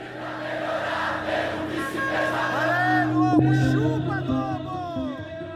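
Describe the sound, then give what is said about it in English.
Thousands of Brazilians cheer in the streets of Rio de Janeiro for a man poised to become president. A sustained crowd roar carries individual shouts and rising whoops throughout. “That is the sound of thousands of Brazilians packing the streets of Rio de Janeiro to cheer on the man who's poised to become the country's next president.”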